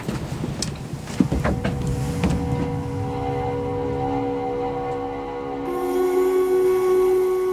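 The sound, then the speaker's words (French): A sailboat's engine is started before the anchor is raised, with a few sharp knocks at first, then a steady, low mechanical hum that keeps running and grows slightly louder toward the end. “Mets le moteur, on lève l'ancre.”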